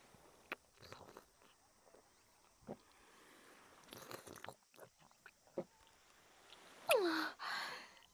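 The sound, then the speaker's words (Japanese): Chewing and crunching of ramune candy in the mouth: faint, sparse crisp crunches and moist clicks scattered across quiet gaps, with a louder burst of crunching toward the end. “お口にラムネ含んで。美味しそう。いただきます。”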